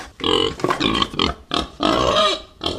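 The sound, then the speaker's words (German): Wild boar grunting in a loud series of rough, snorting grunts, several short bursts and longer throaty runs, heard alone without talk. “Das Geräusch ist wirklich ziemlich klar zu erkennen. Die richtige Lösung ist das Wildschwein.”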